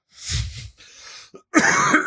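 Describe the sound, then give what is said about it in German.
A person coughs during a casual chat among friends. Several harsh, rough coughs come in quick succession, with a brief throaty catch before a final loud, raspy burst. No words are spoken. “Kannst du bitte aufhören zu husten hier im Podcast?”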